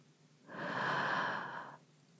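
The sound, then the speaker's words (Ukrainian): A single slow breath as a sleeping person's breathing eases: a soft, airy rush that swells and fades over about a second, with no talk. “Вдих, видих. Вдих.”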